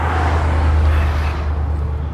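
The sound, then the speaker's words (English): Road traffic on a street during a walk: a steady low rumble under a broad, even wash of engine and tyre noise, with no voices. “And, you know, the traffic, you get used to it. And in ways, the traffic adds energy to my walk and to my psychic or whatever you want to call it.”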